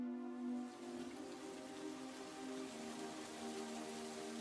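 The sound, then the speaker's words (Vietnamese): Rain falling in a steady, soft, continuous hiss of drops, faint and even throughout, with no voices. “Trời bắt đầu đổ mưa. Một vài hạt mưa rơi xuống lòng bàn tay của Châu và Việt.”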